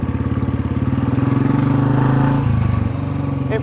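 A 350 motorbike engine runs with a loud, steady, throbbing low putter that shifts slightly lower toward the end, with nothing else over it.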